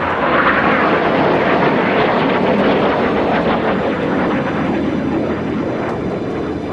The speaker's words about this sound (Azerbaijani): Çevrilişə cəhd edənlərin nəzarətindəki F-16 qırıcıları xalqı qorxutmaq məqsədi ilə Ankara səmalarında alçaqdan uçuş etmişdilər.